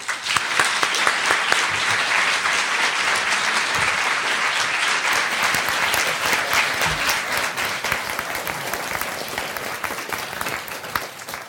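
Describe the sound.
Steady audience applause welcomes a professor onto the stage before a talk, with dense, even clapping that holds for about eleven seconds and fades only slightly toward the end.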